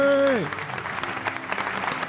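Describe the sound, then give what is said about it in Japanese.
Big round of applause: many hands clapping in a dense, steady patter that holds at an even level for about two seconds, after a brief tone at the very start that slides downward. “これはですな、 盛大な拍手だもん、じいちゃん。”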